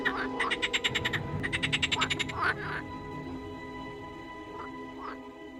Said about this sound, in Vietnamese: Cả thôn phường bãi ngập tràn tiếng ếch kêu, cứ như đang vào mùa ếch gọi bầy sinh sản